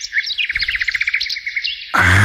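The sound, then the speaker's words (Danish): Bird song recorded in a home garden: a fast, continuous run of bright, high chirps and trills repeating in quick rhythm, fairly loud throughout, then cut off abruptly near the end by a louder, dense burst of noise. “Som har optaget en fugl i egen have.”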